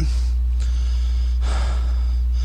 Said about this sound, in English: I'm really out of breath, guys.